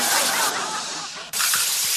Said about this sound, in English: Oh, stop spraying the light cord. Hello, water and electricity, not the best combo.